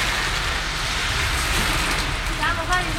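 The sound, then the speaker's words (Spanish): Heavy rain falls along the coast at Viña del Mar and Valparaíso, a steady, dense hiss that holds evenly throughout. “Se largó a llover con fuerza, al menos en Viña y Valparaíso, borde costero. Ahí está, ese es el sonido de la lluvia.”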